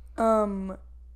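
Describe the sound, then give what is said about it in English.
A dog gives one short, tonal whine or howl that starts strong and fades slightly before stopping abruptly, with quiet low hum around it. “Is that your dog or your dad? That's my dog. Okay. Yeah. That's a dog sound.”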